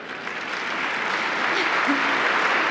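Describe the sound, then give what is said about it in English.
Audience applause for a questioner at a large event, a steady wash of clapping that swells slightly, with a voice briefly audible beneath it. “You must be very popular. They're applauding for you. That's wonderful.”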